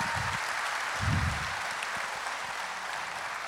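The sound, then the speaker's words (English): A church audience applauds during an Easter service after a call to praise God for water baptism. Steady, even clapping continues at a moderate level for the whole stretch. “Can you give God a hand for that?”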